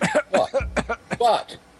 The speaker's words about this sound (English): He just had something in his throat.